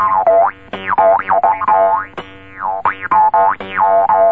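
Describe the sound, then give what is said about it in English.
A jew's harp is played with the tooth smack technique, giving a hard, driving run of twangy boings. Each note carries a sweeping, wah-like vowel shift, and the notes repeat in a quick, uneven rhythm. “in the repertoire of a truly good jew's harp player, that he uses what they call the tooth smack? You remember that? I'm serious. Now listen carefully.”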